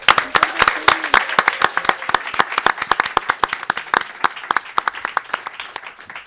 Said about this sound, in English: Guys, we have to take our first quick break, so would you all give it up, please, for e-viewing?